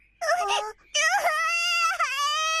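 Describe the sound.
A child cries in two wailing bursts, a short whimpering one followed by a long, sustained, high-pitched moan that wavers briefly before continuing.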